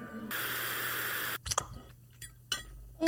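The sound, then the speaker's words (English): Crunchy eating sounds from someone chewing Wheaties cereal: a steady hiss gives way to a few crisp, irregular crunches and clicks, fairly faint overall. “Mmm. Boy, oh boy, these Wheaties are so good.”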